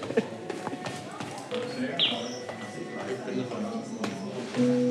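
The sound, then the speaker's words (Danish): Footsteps hurry down a staircase in a concert venue with several halls. Light, irregular taps sound over a murmur of background voices. “Jeg skynder mig lidt ned ad trappen for at nå de forskellige koncerter i de forskellige sale.”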